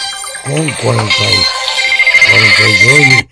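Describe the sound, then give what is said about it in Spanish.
An incoming call makes a telephone ring in short repeated tonal bursts, first three well spaced, then a faster run of several more, loud and clear. “Aquí entra una llamada.”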